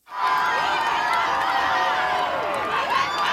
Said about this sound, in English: thousands of people line the streets of Madrid to welcome Pope Leo.